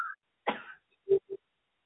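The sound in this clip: A cough brought on by a tickle in the throat: one harsh, breathy burst followed by two short, voiced throat sounds. The sounds are moderately loud, and no talk is heard.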